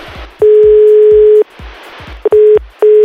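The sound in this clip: Phone call tone of an unanswered call: a steady, loud electronic tone lasting about a second, then two shorter bursts of the same pitch, with low noise in the gaps.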